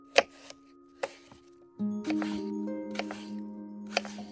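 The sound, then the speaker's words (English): Knife strikes chopping food into smaller pieces on a board. A few sharp, sparse taps fall at uneven intervals over soft, sustained tones. “Chop this into smaller pieces.”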